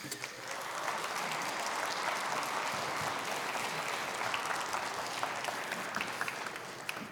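Church audience applauding guests invited up to the front, a continuous, even patter of many hands clapping that stays moderately soft and steady for the whole stretch.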